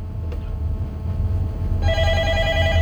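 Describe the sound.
A telephone ringing during a call-in music request show: a bright electronic tonal ring that starts partway through, moderately loud, over a steady low hum with no talk.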